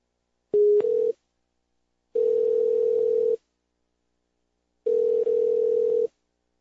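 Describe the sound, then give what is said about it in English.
A call being dialed to a government agency's phone line: three long, steady, even-pitched tones separated by silent gaps, the first starting with a brief click. There is no talk. “So we're going to make a call right now to DHS and see how this goes. Let me see here. Let me get this. It's dialed in.”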